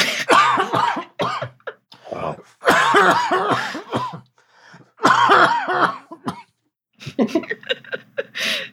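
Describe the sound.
Harsh, repeated coughing from someone whose drink went down the wrong pipe. Several loud bursts come in quick fits with brief pauses between them, and some throat clearing is mixed in.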